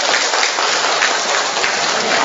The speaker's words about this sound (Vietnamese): Rồi còn chúng ta cho một tràng pháo tay chào mừng một người anh em.